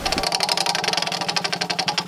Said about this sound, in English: why don't you get us started by giving that old wheel a big spin? All right, here we go.